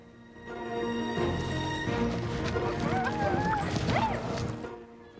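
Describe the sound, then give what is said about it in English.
Horses gallop across a field at the foot of a hill, their hooves making a dense, continuous rumble of quick thudding beats that stays loud throughout. “The horses' hooves kick up dust as they gallop along.”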